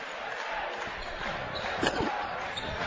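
Basketball dribbled during a game, a few dull bounces thudding low beneath a steady, noisy wash of background sound.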